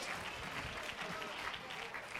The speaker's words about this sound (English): Now, some of you are clapping in hope.